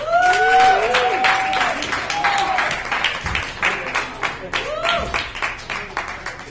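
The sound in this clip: An audience at a comedy show applauds as a comedian is introduced. Loud clapping mixes with voices and cheers at first, then thins into scattered, uneven claps toward the end.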